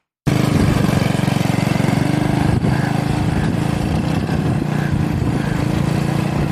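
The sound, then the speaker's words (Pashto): Engine of a beach buggy or scooter on the Karachi shore, running in a steady, continuous mid-pitched drone with a slight rhythmic chug, heard alone without voices. “د کراچي په ساحل جمروز خان خپل بګي یا سکوټر کې سیلګرو ته چکر ورکوي”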